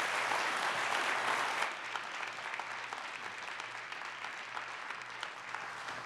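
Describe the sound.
A church audience applauds to welcome a guest speaker at a morning service: dense, sustained clapping, slightly fuller at first, then continuing evenly to the end.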